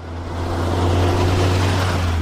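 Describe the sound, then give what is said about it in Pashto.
Steady, loud engine drone of a passenger vehicle travelling a rough, potholed dirt road to Baghran district, with a constant low hum and rumbling noise throughout and no talk. “دا د باغران ولسوالۍ ته پر غځېدلې کنډ او کپر سړک د روان هغه کومک لرونکو بایپور موټر ژغ دی”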